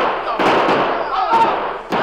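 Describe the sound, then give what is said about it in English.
Gunshots fired at charging colonists in an old radio drama: a few sharp, booming bangs burst through a dense, noisy wash of voices and commotion. “But the crooks themselves, afraid, fired at the charging colonists.”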